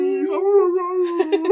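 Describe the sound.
A dog howls along with people singing, holding one long, steady, mid-pitched wail with a slight waver. Near the end, voices break in over it.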